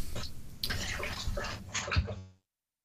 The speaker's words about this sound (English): Is that a dog drinking water? Yeah, it's a dog drinking water.